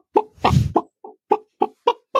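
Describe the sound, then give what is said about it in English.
A voice imitating chicken clucking, sung as a joke in place of backing vocals: eight short, loud clucks in an uneven rhythm, the second drawn out and squawky, the rest clipped. “Instead of singing, baby, I was singing chicken noises.”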